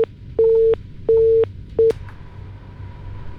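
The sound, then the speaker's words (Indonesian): Busy tone after a disconnected phone call: three evenly spaced, steady electronic beeps, each about a third of a second, then a shorter fourth beep, over a low background hum. “Mohon maaf, tadi sempat terputus telepon yang sudah masuk dan coba saya akan sambungkan kembali.”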